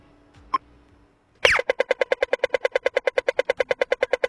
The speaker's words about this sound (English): Yes, the sound of the pedestrian crossing was one of the sounds which they added this year.